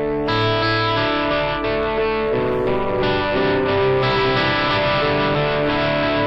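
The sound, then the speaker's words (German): Electric guitar signal pushed into the front of an amp, compressed and distorted: a few loud, sustained, buzzing chords that change and ring on steadily, with no talk. “Und ich schiebe das hier hoch. Dann habe ich es jetzt vor dem Amp. Jetzt ist es erstmal schon mal viel lauter, ja, weil der Amp ja komprimiert und zerrt.”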